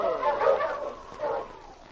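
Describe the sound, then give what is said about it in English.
A dog named King gives a couple of gruff barks, a moderately loud one first and a second a moment later, with quiet between them. “Hey, that dog. You look vicious. Easy, King. He won't hurt you. Well, anyway, I wouldn't like to meet him alone”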